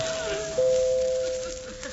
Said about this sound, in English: Well, I'll ring the bell.